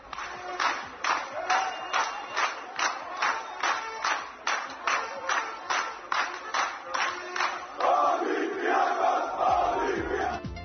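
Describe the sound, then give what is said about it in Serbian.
Greek basketball fans chanting in Belgrade: many voices shout in a regular pulsing rhythm with clapping on the beats, then break into a sustained, louder crowd roar toward the end. “Da, bili su ovo grčki navijači, ali za razliku od Knez Mihajlove gde smo ih sreli”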